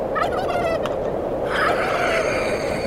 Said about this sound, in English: I'm gonna grab this turkey.